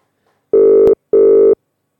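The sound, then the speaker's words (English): An outgoing telephone call rings on the line with two steady electronic tones, each lasting just under half a second and separated by a short gap. The tones are loud and clean, with silence before and after. “I've got another phone call that we can make. So I'm going to give it a go, and let's hope that we can get onto this caller. We're trying them now.”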